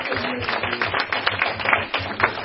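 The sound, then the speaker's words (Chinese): Warm applause from an audience at a Christian gathering, many hands clapping in a dense patter with a few louder claps standing out, steady throughout. “所以谢谢我们在此的热烈的掌声”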